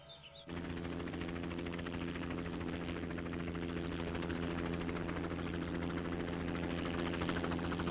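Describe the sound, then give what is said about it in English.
A helicopter circles above a substantial log cabin in Alaska, its loud, steady rotor and engine drone starting abruptly after a brief quiet moment and then holding a constant, throbbing roar to the end. “A helicopter circles above a substantial log cabin.”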